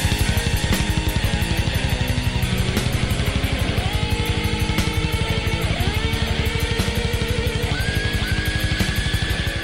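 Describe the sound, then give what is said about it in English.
Super fast double bass drumming drives a metal song, a rapid, even stream of kick-drum pulses running unbroken beneath dense, loud instruments. “Some of the best drumming in rock history. Mm-hmm. A super fast double bass drum.”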